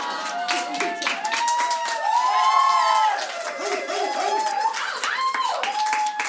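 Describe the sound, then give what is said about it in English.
Audience clapping at a storytelling show, a dense patter of many hands with cheering and shouting voices mixed in, steady and fairly loud throughout. “Claps for summer!”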